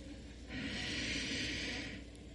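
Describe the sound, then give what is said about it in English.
A single deep breath drawn in during a hands-on-heart breathing exercise, a soft, airy, steady inhale lasting about a second and a half. “So what we're going to do here is we're going to put our hands on our heart, and we're going to breathe in,”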